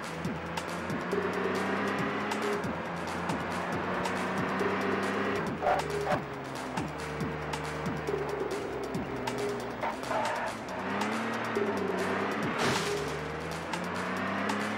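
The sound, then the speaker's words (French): Car engine in a driving video game, moving through London traffic on the left side of the road and steered with the right stick. The engine note swells and falls repeatedly, staying loud and continuous throughout. “Ça se pilote bien au stick droit en fait. Hein. Ouais, bah on est à Londres, faut rouler à gauche, je sais. Mais il y a du trafic”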